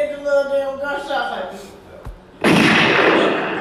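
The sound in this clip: Gunshots imitated by a voice: after some talking, a low thump is followed by a loud, sustained breathy burst of mouthed noise that stays strong to the end.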